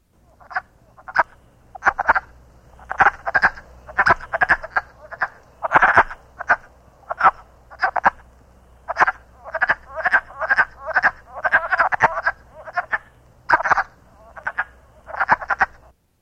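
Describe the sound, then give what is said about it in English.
A wood frog calls with many short, hoarse, clucking croaks. They come in quick clusters with brief pauses between, fairly loud and steady, and stand alone without voices. “Wood frog.”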